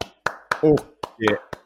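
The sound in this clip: A person clapping hands slowly: five sharp, separate claps at an uneven pace, with brief vocal sounds from a voice between them.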